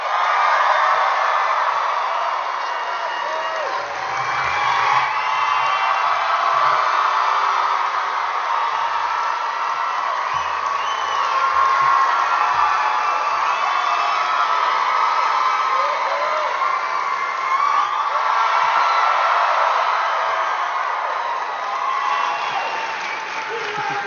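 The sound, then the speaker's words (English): A crowd cheers and applauds to welcome Nathan Fillion at a live event in Phoenix. Loud, sustained clapping is mixed with cheers and whoops and holds steady for over twenty seconds. “Give a huge Phoenix welcome for Nathan Fillion!”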